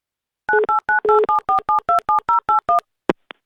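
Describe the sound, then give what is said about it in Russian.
Telephone keypad tones as a number is dialed: a rapid, even run of twelve short dual-pitched beeps, then two brief clicks. “Итак, в полной тишине набираю номер.”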